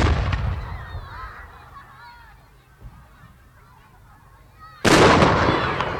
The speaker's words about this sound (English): These fireworks change colour as they speed up into the distance,